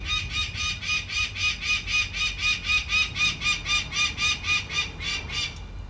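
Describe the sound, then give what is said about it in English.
An adult female peregrine falcon screams an alarm at her nest beneath a bridge roadway in New York City, giving a rapid, evenly spaced series of harsh, piercing calls over a low, steady rumble. “Just before dawn, Nadareski removes an access grate and climbs down as the adult female screams an alarm, then reluctantly leaves the nest.”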